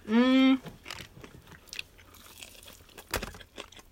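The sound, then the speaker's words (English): Crunchy bites into a spicy Popeyes fried chicken drumstick, a few crisp crackling bursts of breading followed by softer chewing, fairly quiet and with no talking. “Yeah, let me try a drumstick real quick.”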